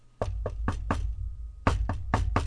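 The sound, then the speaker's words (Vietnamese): Loud knocking on a door past midnight: two quick bursts of four heavy thumps each, separated by a short pause, sharp and forceful with no other sounds. “Thế nhưng hôm nay tiếng gõ cửa hình như rất mạnh.”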